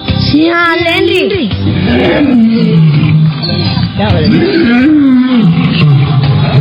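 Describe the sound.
Loud, lion-like roaring fills the whole stretch, rising and falling in pitch, with voices mixed in, during a children's talk about the strongest animal.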